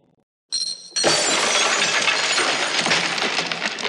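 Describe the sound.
A glass jar holding a coin is thrown down stairs and shatters: a brief noisy lead-in, then one loud, bright crash that carries on as a dense spray of breaking and clinking glass until the end.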